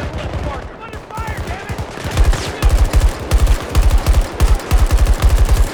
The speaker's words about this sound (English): Ooh, headshot. I'm running way low. Oh, it's so much shooting. This is crazy.